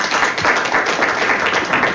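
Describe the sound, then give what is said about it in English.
An audience applauds with brisk, steady clapping of moderate loudness that continues evenly without a break. “I want to give her a big round of applause for you.”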